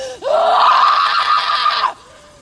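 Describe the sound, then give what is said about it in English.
A woman gives a short horror-movie scream, high and strained, that starts sharply and holds loud and steady for under two seconds. It then cuts off abruptly. “This is a short scream”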